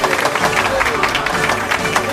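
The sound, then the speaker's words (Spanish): A studio audience on a television show applauds to welcome a guest: brisk, dense clapping with some voices mixed in, steady and fairly loud throughout. “Un aplauso, por favor.”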